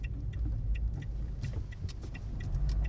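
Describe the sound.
Car driving, heard as a steady low engine and road rumble with faint, evenly repeated clicks above it; no one speaks.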